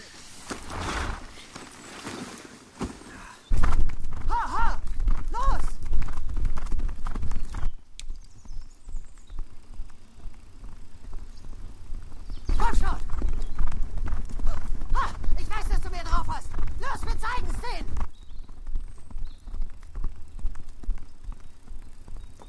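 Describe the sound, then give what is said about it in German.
Clip-clop of a racehorse's hooves on a track as the horse is worked toward the two-thirds-mile post, a steady loud run of hoofbeats mixed with people talking throughout. “Du bringst ihn zum 2/3-Meilenpfosten und dann lässt du ihn gehen. Gehen lassen? Ja, Junge, er ist ein Rennpferd.”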